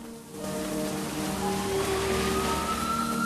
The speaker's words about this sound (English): Lottie walks barefooted through the streets of New York in the pouring rain